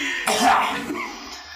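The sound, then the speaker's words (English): A human voice imitating a creature coughing up a bunch of water: one rough, wet, throaty cough-like burst that trails off into a fading gurgle. “and just coughs up a bunch of water on you.”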